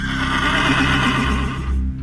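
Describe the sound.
A horse neighing: a loud, sustained whinny with a wavering, shaking pitch that holds for over a second before fading out.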